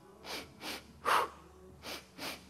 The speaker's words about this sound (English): we'll just start with an energizing breath.